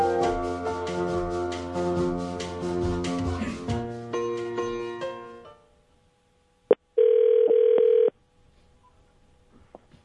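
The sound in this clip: A telephone call to a family member's home being dialed and ringing: after a brief click, a steady electronic ring tone sounds once for about a second, following an earlier stretch of louder tonal sound that fades to near silence.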